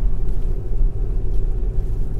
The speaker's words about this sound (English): Driving home now, it's raining.